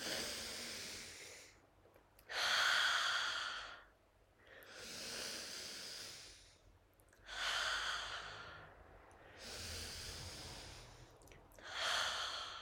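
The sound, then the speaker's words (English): A person takes slow, deep breaths during a seated breathing exercise. Each long, airy inhale is followed by a long exhale, repeated about three times, quiet and without talk. “And let's... 3 deep breaths.”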